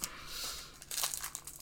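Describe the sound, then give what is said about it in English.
A Magic: The Gathering card slides into a plastic sleeve, making a faint, brief crinkle and rustle of thin plastic. “We're going to put it in a sleeve.”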